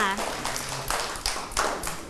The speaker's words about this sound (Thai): ใช่ค่ะปรบมือให้กับพี่นิลินหน่อยค่ะ